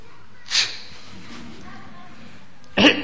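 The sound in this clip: A person imitates someone sitting nearby sneezing and coughing: two short, sharp, breathy bursts about two seconds apart, separated by quiet.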